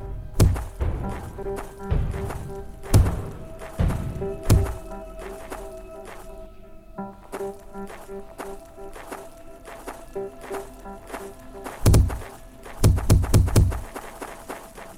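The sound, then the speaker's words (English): Repeated dull thuds as a video game character runs into a wall again and again: many short knocks and thumps come in irregular clusters, some rapid and some spaced, over a faint steady game tone. “No, apparently if I run into the wall more, like, a lot of times, like, enough, I can apparently walk through it.”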